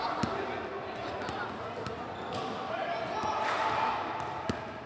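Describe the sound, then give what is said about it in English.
Basketballs bounce as kids shoot hoops at Rec Night, a weekly evening of basketball, breakdancing and food. A few sharp, scattered thuds cut through a steady wash of crowd chatter and voices. “Kids shooting hoops at Rec Night, a weekly evening of basketball, breakdancing, and food”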